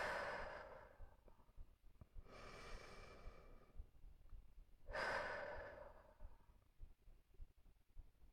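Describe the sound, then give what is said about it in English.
Deep breaths are drawn and let out, a couple of soft, airy inhales and exhales heard faintly on their own with quiet pauses between them. “Okay. Deep breath.”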